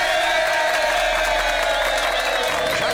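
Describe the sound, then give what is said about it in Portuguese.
Applause and cheers from a radio studio audience, with dense clapping and scattered whoops forming a steady, lively roar throughout. “Então, eu queria aqui essa salva de palmas, porque eu me orgulho muito em saber”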